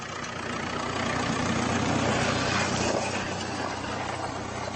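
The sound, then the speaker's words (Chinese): Tractor engine droning while ploughing a field to prepare for next year's planting, a steady, unbroken low rumble at moderate loudness with no pauses. “萨瑟兰开着拖拉机犁地，为来年的耕种做着准备。”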